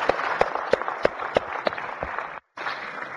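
Applause welcoming guests in a Senate chamber: steady clapping with a few sharper, evenly spaced claps standing out, broken by a brief gap near the end.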